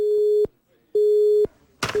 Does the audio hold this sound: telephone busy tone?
yes